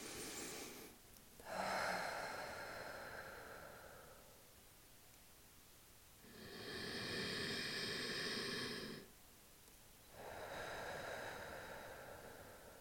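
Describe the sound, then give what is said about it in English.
Slow, deep breaths taken while settling into a guided New Year meditation: a few long, soft, airy swells of breath separated by quiet pauses, faint and unhurried, with no talking. “And let's start with just centering ourselves a little bit, taking 2-3 deep breaths.”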